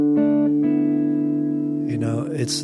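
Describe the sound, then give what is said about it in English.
Jazz guitar intro in D minor played on open strings in simple intervals, a few plucked notes that ring and sustain together; a voice begins speaking near the end. “He's using the sound of the guitar. He's using the way the guitar resonates, and he's putting open strings in simple intervals.”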